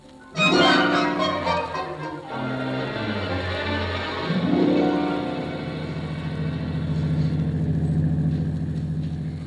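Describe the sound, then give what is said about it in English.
A car driving slowly through fog, heard as a loud, continuous low engine drone with a broad hiss running underneath the whole time. “Can't you drive just a little faster, Casey? It's after six, and we're late. I can't help it, Annie. I can't help it. I can't see if I try to do any speeding through this fog, we might wind up in a hospital.”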